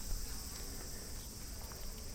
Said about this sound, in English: you can hear the cicadas in the background, and it's a very peaceful place.